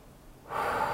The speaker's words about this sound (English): Just take a nice big breath with that